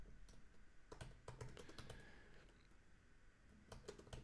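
Typing on a computer keyboard while a message is written, many soft, irregular keystrokes in short bursts, faint and with no talk.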